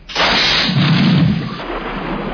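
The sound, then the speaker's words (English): A torpedo launches from a submarine's tube one with an abrupt, loud rushing burst that begins sharply and then holds as a continuous whoosh, easing only slightly toward the end. “Outer door on tube one open. Match bearings and shoot. Set. Shoot.”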